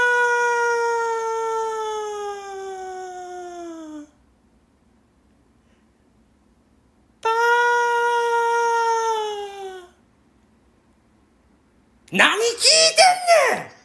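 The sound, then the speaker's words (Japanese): A man uses his voice to imitate an elephant's trumpeting. There are two long, sustained calls whose pitch slowly falls, separated by silence, and then a short, harsher, louder burst at the end. “じゃあ俺がまたゾウの感じやるからちょっと聞いといて”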